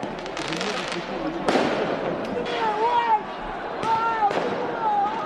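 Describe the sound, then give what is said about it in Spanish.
Firework bangs from riots in France after Paris Saint-Germain's Champions League final win: several sharp, loud blasts ring out among shouting voices and a constant crowd roar. “El sonido de esos disturbios”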